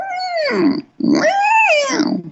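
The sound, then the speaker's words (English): Whales toning: two long, moaning tonal calls rich in harmonics. The first sweeps downward; after a short gap, the second rises and then falls, with nothing else audible around them. “The whales all tone, they're all toning at 8 cycles per second. Which is a really low frequency.”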